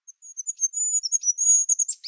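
A call of a bird's close sister species: a quick run of thin, very high chirps and short trills, repeated many times in rapid succession and heard alone.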